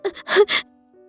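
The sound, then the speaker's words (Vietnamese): A pained moan from a person scalded with boiling water who lies curled up on a car's back seat: a few short, strained voiced bursts of gasping groans, then quiet. “Đôi môi mỏng khẽ mím chặt, không chịu nổi cơn đau, lại phát ra tiếng rên xé ruột gan.”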